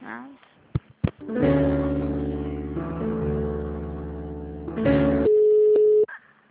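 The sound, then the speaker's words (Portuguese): Telephone tones play while a call is being transferred. A few short clicks come first, then a sustained, buzzy tone with a slight shift partway through. A brief pure, steady beep ends it before it cuts off. “só um minutinho, eu vou transferir lá pra Kelly na folha de pagamento, tá?”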